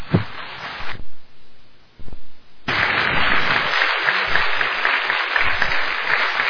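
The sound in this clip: An audience applauds to welcome speaker Doug Bond for the evening. A few scattered claps and pops swell into steady, dense clapping that carries on loudly to the end.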